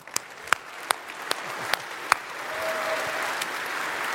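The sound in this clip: Applause from a church audience welcoming a pastor to the platform: steady, dense clapping with several sharper claps standing out early on, then swelling slightly louder and fuller in the second half.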